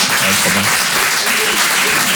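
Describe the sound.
Audience applause at a comedy show, a dense, steady wash of clapping with some voices mixed in.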